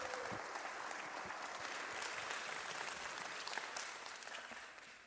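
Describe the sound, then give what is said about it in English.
A church audience claps in welcome for a speaker from its own community before a sermon, a steady, fairly soft wash of many hands that keeps an even level and eases off at the very end. “So put your hands together. Give a warm welcome to one of our own, Daniel.”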